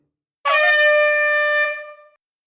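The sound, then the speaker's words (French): Single steady blast of a signal air horn used to tell cyclists on a guided ride to stop, loud and buzzy, holding one pitch for under two seconds before cutting off. “Au signal sonore, nous vous demanderons de vous arrêter, poser un pied par terre et repartir ensuite.”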